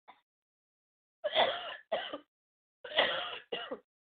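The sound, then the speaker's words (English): Coughing from someone trying to stop, heard as a faint short sound at the start and then two close pairs of harsh, rough bursts, with no talking. “Trying to stop coughing.”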